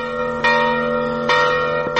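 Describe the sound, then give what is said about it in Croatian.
A heavy church bell weighing over 300 kilograms rings at the start of a Mass. It sounds three loud, evenly spaced strikes, each leaving a long humming ring of overtones. “čiji je početak označila zvonjava zvona teškog više od 300 kilograma, koji je izrađen u porodici Stjepana Šafrana iz Hrvatske”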